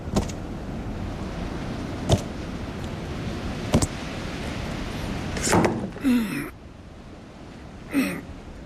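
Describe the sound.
Metallic clicks and thunks of a car door latch being worked by an arm reached blindly through a hole cut in the sheet metal: four sharp knocks spaced apart, then two rougher scraping bursts.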